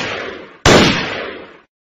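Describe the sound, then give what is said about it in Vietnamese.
Two gunshots fired backwards while riding away: the fading tail of one shot, then a sharp, loud bang with a long decaying ring that dies out into silence. “Đại Sơn Dương thốt giận, lẩm bẩm và rút phát súng ra. Dậy ngược lại phía sau liền hai cái.”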